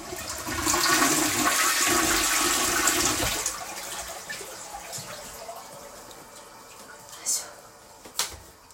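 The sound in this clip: A toilet flushes after urine is poured into it from a can, a loud rushing surge of water for about three seconds that then fades to a quieter trickle, with two brief clicks near the end.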